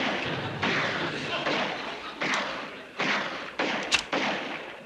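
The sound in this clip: Gunshots from a soldier emptying his gun in a battle scene: a rapid string of many loud, dull cracks, roughly one every half second to second, over a continuous noisy background.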